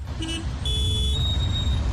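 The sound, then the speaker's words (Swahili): A traffic jam on a road, with a low, steady rumble of idling engines under brief, high tonal horn blasts that sound a couple of times. “Magari kadhaa pia yameishiwa mafuta. Traffic jam kama lote. Magari hayasogei. Muda unapita.”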